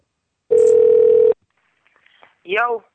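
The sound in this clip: A telephone dial tone holds steady for just under a second, followed by a few faint blips of dialing; then a voice begins to speak.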